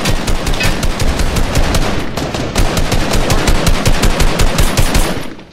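Rapid automatic gunfire in the Fortnite video game pours out in dense, loud bursts of shots, nearly continuous with a short break about midway.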